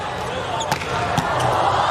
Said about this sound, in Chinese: 哈里斯发球直接得分